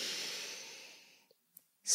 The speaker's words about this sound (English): Take a nice deep inhalation.